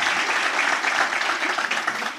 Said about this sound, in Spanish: Los de Lima aplaudan, los de Lima aplaudan.